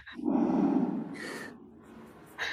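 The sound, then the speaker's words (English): Heavy, rasping breathing from a man: a long, loud, breathy rush, then quieter hissing breaths, with one more breath at the end. No one talks. “Why is he breathing like that?”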